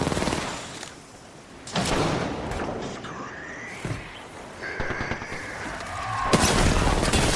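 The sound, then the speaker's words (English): Gunfire in a battle royale shooter video game, irregular bursts of shots mixed with a sharp shattering crash and brief electronic tones from the game. “They're shooting at me.”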